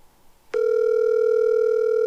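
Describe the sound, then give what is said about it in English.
A phone's ring tone sounds as a call rings through before going to voicemail: after a brief quiet moment, one steady, loud, unbroken electronic tone holds at an even pitch to the end. “Let it ring twice. It's only twice? My voicemail.”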